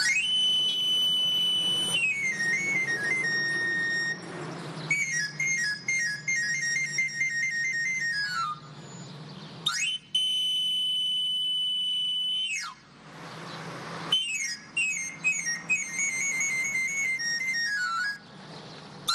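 A pan flute played as a knife sharpener's street call in Cuba: quick runs of high, breathy notes sweep up and down the scale in several separate phrases with short pauses between them.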